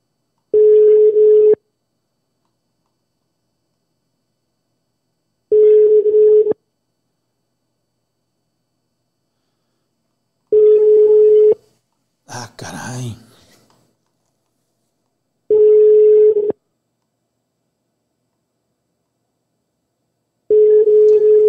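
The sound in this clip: Telephone ringback tone while calling someone: five evenly spaced, steady mid-pitched beeps, each about a second long with roughly four seconds of silence between, and one brief noisy burst in a gap.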